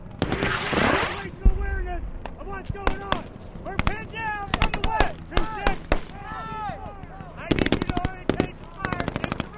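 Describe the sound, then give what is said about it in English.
A gunfight at the edge of the fighting erupts in bursts of automatic gunfire and sharp single shots, loud and irregular, with voices shouting between the volleys and a rapid closing burst. “I understand you've actually witnessed a couple of gunfights. We've got some sound of one of those.”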